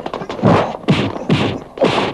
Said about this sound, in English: I'm ready to go in, so I slap back.